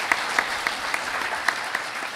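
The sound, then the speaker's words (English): Audience applause at a Federalist Society event honoring a member's 25 years, a dense, steady patter of clapping with a handful of sharper single claps popping out above the wash. “I think everybody owes him a round of applause.”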